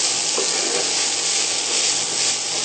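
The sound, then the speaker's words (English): Mushrooms and softened onions sizzle in oil in a pan as they are stirred. A loud, steady hiss of frying runs throughout, with soft scraping from the stirring. “Okay, our onions are starting to soften. So I'm going to go ahead and add in our mushrooms. And now move these around and coat them in oil also.”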